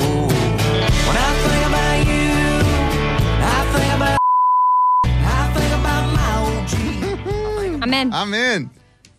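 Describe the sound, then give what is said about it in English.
A censor bleep covers a number in a country song: one steady, clear tone cuts into the loud sung music for under a second before the song resumes. “The number's bleeped out in the country song.”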